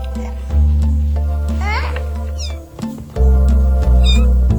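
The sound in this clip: Six-week-old kittens meow in a few high, wavering cries over a steady low droning background.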